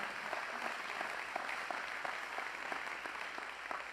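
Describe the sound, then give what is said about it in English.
Steady applause from a church audience welcoming online viewers during a Sunday sermon service, a dense, even wash of clapping that holds for the full four seconds without a pause. “would you do me a favor and welcome all those online today?”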